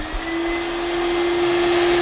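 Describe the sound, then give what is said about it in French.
A steam cleaner runs with its suction on, drawing dirt out of car seat upholstery. It makes a steady, continuous whirring drone with a constant whining tone and has no talking over it. “Le fait de dissoudre ces impuretés avec la vapeur et l'aspirer en même temps, rend le tissu comme neuf.”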